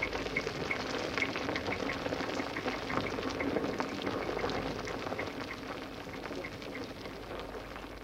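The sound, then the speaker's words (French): Wine bubbles and boils in barrels, a faint, steady fizzing and crackling of many tiny bursts that continues evenly throughout. “le vin qui bouillait dans les tonneaux.”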